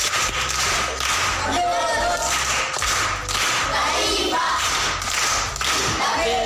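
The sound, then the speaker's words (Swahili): Pupils at a primary school clap in a rhythmic group pattern after a classmate recites a proverb. Many sharp, even claps and thuds repeat in a steady beat, with voices audible between and under them. “Makofi kwa mjomba.”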